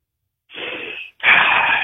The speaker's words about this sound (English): Okay, here we go. Deep breath